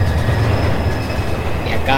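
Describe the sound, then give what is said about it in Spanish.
A train crosses a bridge with a loud, steady rumble and rattling wheels throughout, and a brief metallic squeal rises near the end. “Cómo emerge el, tren. El tren. Cruzando ese puente.”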